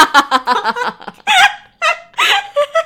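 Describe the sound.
A human voice imitates a chicken clucking: many short, choppy voiced bursts come in quick succession, followed by a few longer, more drawn-out clucks with small gaps between them.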